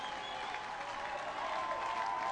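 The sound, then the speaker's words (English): Baseball fans in the stands clap and cheer as the home team nears its last strike. A steady, fairly faint wash of applause and crowd noise swells slightly toward the end. “Not sure Cabrera can hold up. Fans starting to cheer, some rising.”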